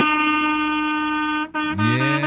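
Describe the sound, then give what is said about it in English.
A truck driver sounds a truck air horn in salute. It gives a loud, steady, brassy blast, breaks off briefly, then sounds a second blast whose pitch rises at the start. “I feel honored to be able to toot my horn one more time for Greg”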